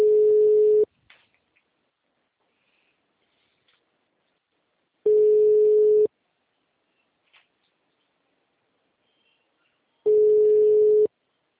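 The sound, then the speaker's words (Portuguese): A telephone tone sounds after a dropped call: three short, steady mid-pitched beeps evenly spaced by long silences, with only faint clicks in between. “Então, a ligação caiu.”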